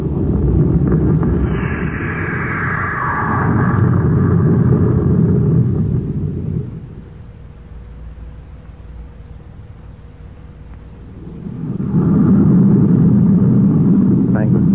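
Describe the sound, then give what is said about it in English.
Rocket jets firing at blast-off: a loud, broad roaring rumble lasts several seconds, drops to a quieter steady hum, then surges back into a second heavy roar near the end. “Have stand by for blast off. Standing by, sir. Close ports. Fire jets.”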